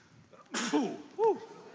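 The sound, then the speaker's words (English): A single faint sneeze, a sharp breathy burst followed by a brief voiced catch and a short second vocal sound. “I usually sneeze like three times. Yeah, bless you.”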